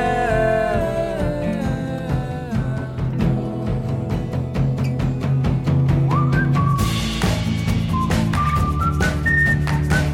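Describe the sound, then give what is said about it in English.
A person whistling a tune, the bright melody carried over a full instrumental backing with a steady beat that grows busier and brighter toward the end. “the one absolute lovely thing about the whistle is that you could just do it anywhere”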